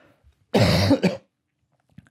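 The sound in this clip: A person clears their throat in one harsh, rasping burst with a short second push at the end. It is loud and stands alone against near silence.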